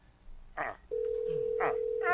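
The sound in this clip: A telephone call left unanswered, heard as a steady electronic ring tone that holds clear and unbroken for over a second, after a few short bursts of sound.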